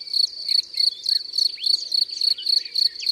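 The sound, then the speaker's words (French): Field crickets, big black ones with a golden-yellow band across the shoulders, chirp in meadow grass on a sunny June morning. A bright, high trill pulses in rapid, regular bursts as several insects overlap. “C'est le grillon des champs, ce bon gros grillon noir avec une bande jaune dorée sur les épaules.”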